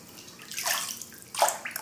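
Water moves in a bathtub filled with bath salts, lavender essential oil and bubbles: quiet sloshing and gentle splashes, rising in two main swells, with no voices.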